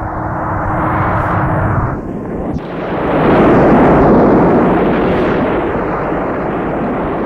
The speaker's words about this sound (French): l'avion a explosé. Le monde a explosé dans l'avion.